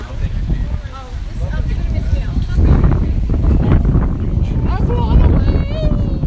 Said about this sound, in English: I love the wind.